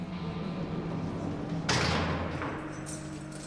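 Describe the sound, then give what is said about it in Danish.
A prison gate in an old workhouse jail is shut and locked with a single loud, sharp metallic clank and thud partway through. Faint rumbling is heard before it, and a softer lingering rattle follows. “Pastor Visby bliver låst ind igennem fængselsporten.”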